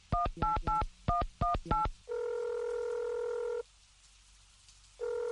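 A touch-tone telephone is dialed to place a call: a quick run of short keypad beeps, then a long steady tone that stops and starts again after a pause.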